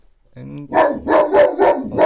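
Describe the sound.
A Landseer water-rescue dog barking: a brief whine, then a rapid series of loud, deep barks in quick succession.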